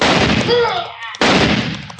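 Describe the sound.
Rifle shots in a video game: two loud, sharp blasts about a second apart, each trailing off into a long, decaying rumble.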